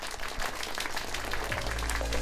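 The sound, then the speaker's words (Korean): Audience applause after a performance, a crowded, crackling patter of hands at a steady level, with a low, steady hum underneath. “우리 다시 한번 큰 박수 부탁드립니다.”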